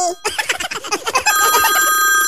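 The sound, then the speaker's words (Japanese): A telephone rings with a steady, high electronic tone through the second half, after a short stretch of speech-like chatter. “もしもし電話鳴ってるよ”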